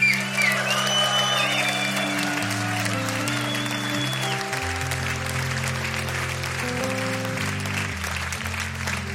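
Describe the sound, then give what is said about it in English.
A concert audience applauds and cheers while band members are introduced on stage. Dense, steady clapping runs over stepping instrumental notes from the band, and voices are heard faintly. “And please make some noise for Hayley Nyswanger.”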